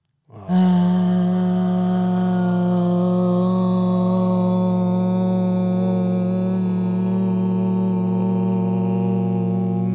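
A group chanting Om as one long, steady, low-pitched tone that begins abruptly and holds at an even loudness without a break.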